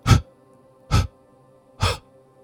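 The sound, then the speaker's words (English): Three short, sharp spurts of breath from a breathing exercise come evenly spaced about a second apart, each a brief breathy burst separated by quiet. “One long breath in, three short spurts,”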